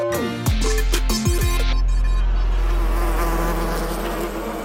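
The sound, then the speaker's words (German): An Asian hornet buzzes in a loud, harmonic drone. The pitch dips briefly a couple of times early on, then the buzz holds steady and fades slightly toward the end. “Wenn ich dieses Geräusch höre, dann gehe ich lieber auf Abstand. Das ist nämlich eine asiatische Hornisse.”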